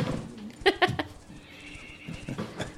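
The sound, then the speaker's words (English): A horse whinny sound effect plays as a rider nearly falls from the saddle. One short, shrill neigh breaks out in quick pulses, then fades into low background noise. “That sound is her, like, almost falling off her horse as she pulls the manticore spine out of her side.”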